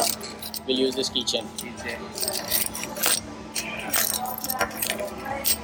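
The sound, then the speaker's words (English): A keychain jangles in a series of bright, metallic jingles and clinks that come in irregular bursts over a steady low hum. “We'll use this keychain.”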